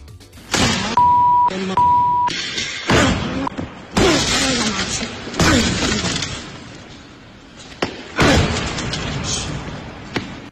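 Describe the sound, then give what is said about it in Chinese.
A foot kicks hard against a dented car body whose window was kicked in, giving many loud, heavy bangs and crashes. Two steady censor beeps early on mask shouted words in the processed audio. “车身是多处凹陷啊。我们来这个感受一下当时现场的场景啊，因为当时踹的时候呢，可能嘴里边啊，有一些特别的问候，所以做了一点音效处理。”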